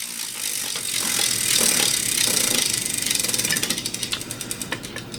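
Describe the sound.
Spinning prize wheel: rapid, loud ratcheting clicks blur together at first, then slow so that individual ticks grow more spaced and distinct toward the end.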